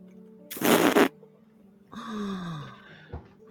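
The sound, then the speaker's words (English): A squeezed rubbery novelty toy lets out a fart noise. A brief breathy rush of air comes first, then a longer buzzy, droning blurt whose low tone sags slightly in pitch before it fades. “You captured your own fart in here for me.”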